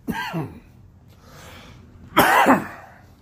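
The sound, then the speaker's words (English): A person coughs in two short bursts with a pause between them. The second burst is louder and harsher. “Needed to take a drink as my throat decided to start coughing at that very moment.”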